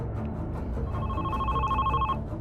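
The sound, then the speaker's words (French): A telephone rings at a central police station: one steady electronic ring lasting about a second, heard over a dense, loud background bed. “Le téléphone du commissariat central retentit.”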